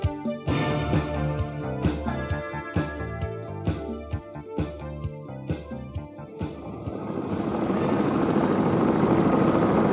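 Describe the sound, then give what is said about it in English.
A helicopter engine starts and the aircraft takes off. A steady, broad rushing roar swells up and holds through the final seconds, after a passage of rhythmic, tonal beats. “The engine started and he couldn't hear anything else. The helicopter took off and climbed slowly into the sky.”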